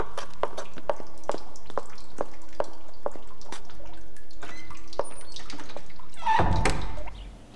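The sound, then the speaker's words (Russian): Drops falling one by one into a glass in a laboratory, heard as many sharp, light ticks at an uneven pace. Near the end comes a louder, noisier splashing burst. No voices. “Она пришла в какую-то лабораторию. Там женщина капает капли в стакан.”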